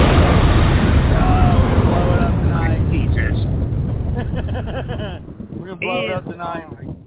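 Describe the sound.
A bomb explosion sound effect: a loud, broad rumbling blast that decays slowly over several seconds. Voices talk over its fading tail.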